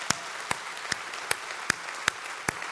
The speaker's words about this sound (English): if you'll put your hands together one more time, let's welcome all the people that will be watching us online.